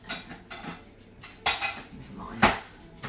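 A bowl spins and clatters on a kitchen counter: light scattered rattling of crockery, then two sharp, bright clanks spaced about a second apart, with a thin ringing tail after each.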